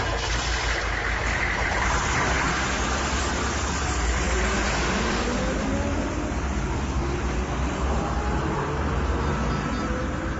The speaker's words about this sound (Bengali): গাড়ি বের করতে বলুন, এক্ষুনি বেরোবো।